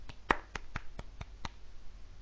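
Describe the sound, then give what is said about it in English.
Seven single hand claps come at an even pace of about four per second. They are crisp and fairly quiet, and a short quiet stretch follows the last one. “I was clapping.”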